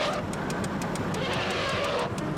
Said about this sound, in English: That's how you do the turn signal on this pile of crap.